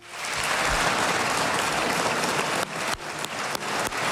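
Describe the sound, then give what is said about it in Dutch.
Applause in a parliament chamber: a dense, steady patter of many hands clapping that breaks up near the end into a few scattered, separate claps. “En gisteren werd hij in het parlement met applaus ontvangen, horen we bij de VRT.”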